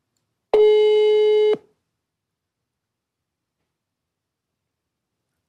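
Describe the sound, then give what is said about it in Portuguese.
An outgoing telephone call gives a single ringing tone, one steady buzzing note about a second long, followed by silence until the next tone begins at the very end. “os caras pediram para eu ligar pro João Camargo. Eu vou dizer, viu? Um toque.”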